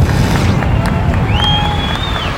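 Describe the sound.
A crowd cheering in a street, a dense roar of many voices with a high whistle sounding briefly through the middle.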